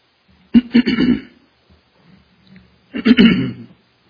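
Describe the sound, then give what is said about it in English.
A preacher clearing his throat twice during a sermon, two rough, throaty bursts separated by a pause of about two seconds. “can't get my throat cleared up”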